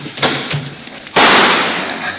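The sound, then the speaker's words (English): A gunshot fired from a window in a radio drama follows brief talk: one loud, sharp blast with a long noisy tail that slowly fades. “Let me try a shot before those jokers get smart and rush it.”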